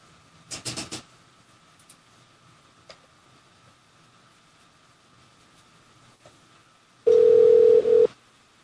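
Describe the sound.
A telephone dial tone from a Brooklyn hotel room phone sounds as a steady, loud, even hum for about one second near the end, after an earlier brief noisy burst and a few faint clicks.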